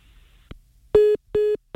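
A phone line tone from a failed international call: after a faint click, three steady mid-pitched beeps follow at a quick, even rhythm.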